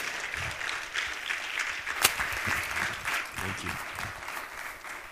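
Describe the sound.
Applause from a church audience welcoming a speaker to the stage at a morning service: dense, steady clapping throughout, with one sharp clap briefly standing out.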